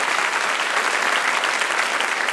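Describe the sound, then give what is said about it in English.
Sustained, dense applause from a debate audience, steady and even in loudness throughout with no talk over it. “I'd just like to give them a round of applause.”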